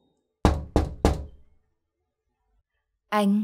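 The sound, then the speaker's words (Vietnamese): Three loud, sharp knocks on a door at night come evenly spaced in quick succession. After a pause, a brief voice calls out. “Ba tiếng gõ cửa vang lên.”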